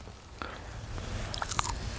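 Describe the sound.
A crisp bite into a freshly picked pear, harvested about two weeks early. A few faint crunching, chewing sounds follow over a steady low background.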